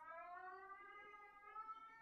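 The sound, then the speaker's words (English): An air raid siren sounds outside as a faint, steady wailing tone with layered harmonics, its pitch sinking slightly over the two seconds. “that's an air raid siren. Are you okay? What is that? I'm sorry. I don't know what that is. Something outside.”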